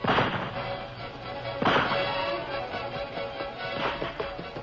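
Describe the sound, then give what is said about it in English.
Rifle shots fired at an outlaw among rocks and boulders on a slope, several sharp cracks with booming decay spaced irregularly over a few seconds, fairly faint beneath a rumbling background. “Take your rifle and keep firing at him. Make him take cover.”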